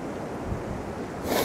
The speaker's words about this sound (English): Sorry, I'm just trying to stay away from the wind here.